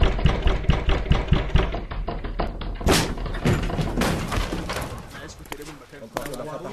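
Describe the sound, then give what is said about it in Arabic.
A door being broken in: many heavy thuds and bangs in a dense, loud series, with voices mixed in among the impacts. “أنت مين ادالك الحق إنك تكسر الباب وتدخل مكان ملك اليوسف الرامي؟”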